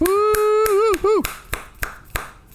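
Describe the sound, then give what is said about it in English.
Hands clap in a steady, even rhythm, a crisp run of sharp, bright claps spaced evenly apart, with a sustained voice held over the first half before the claps continue alone. “We've run out of celebrations. We can only clap so many times.”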